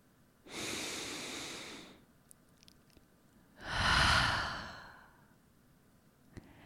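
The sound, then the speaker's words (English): A person sitting in bed takes a deep breath: two long, soft, airy breath sounds separated by a pause, the second louder and fuller. No talk is heard. “That was my first deep breath of the day.”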